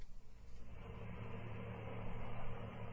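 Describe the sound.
Quiet, steady engine hum of a car driving along, a low continuous drone that swells slightly without any clear change in speed.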